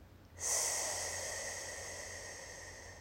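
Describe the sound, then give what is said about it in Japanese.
A single slow exhale from a breathing exercise, a soft, even hiss of air that starts abruptly, then fades gradually over a few seconds with no voices. “酸素が入ってきたらまたしっかり吐きましょう。”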